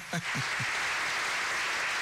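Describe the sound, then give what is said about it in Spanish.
Applause sound effect played by a host: a dense, steady clatter of many clapping hands that holds at an even level throughout, after a brief voice at the very start. “Es lo que tenía a mano, los aplausos, así que bueno.”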